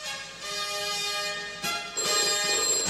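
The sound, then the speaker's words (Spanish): A telephone rings in the 1981 James Bond film For Your Eyes Only, a call meant for the prime minister; a steady, bright electronic tone with a brief break before it rings on. “Yo lo cogeré, Denis. Diga. El señor Bond está al teléfono, señora primer ministro.”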